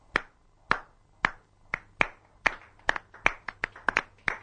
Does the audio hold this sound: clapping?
yes